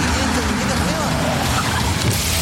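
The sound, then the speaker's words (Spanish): Engine and road roar from a new Maxus T70 pickup with a 2.5-litre turbodiesel engine: a dense, loud, continuous rumble with voices mixed in. “Ya llegó la nueva Maxus T70 con motor 2.5 litros turbodiesel, 221 caballos de fuerza,”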